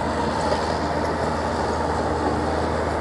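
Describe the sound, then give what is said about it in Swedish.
A forestry machine driving through a river over freshwater pearl mussels, heard as a loud, steady mechanical rumble and roar that runs unbroken from start to end without distinct separate events. “Det du hör här är alltså en skogsmaskin som kör över flodpärlmusslor i Hukkajoki i Suomussalmi.”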